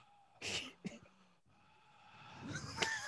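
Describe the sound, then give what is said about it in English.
A man imitates an actor's heavy breathing: a few loud, wheezy, snorting breaths, then a brief pause, then a longer noisy breath that swells toward the end. “I did James Gandolfini's breath.”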